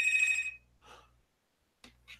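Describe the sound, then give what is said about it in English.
A house telephone rings with a bright, steady electronic tone that fills the opening half-second. A few brief, faint noises follow after a pause. “Who the hell is that? That drug dealer phone? That's my house phone.”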